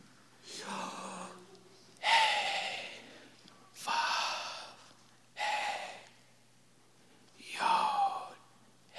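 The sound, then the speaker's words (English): Deep, slow breaths during a church prayer, five long airy breaths spaced evenly with quiet pauses between, each swelling and fading softly, with the start of another at the end. “let us breathe in together”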